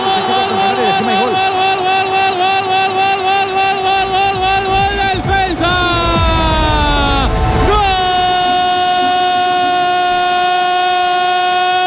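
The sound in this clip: A train horn blares in a long, loud, sustained chord with rumbling rail noise beneath, its pitch dipping briefly twice before it settles into a steady tone.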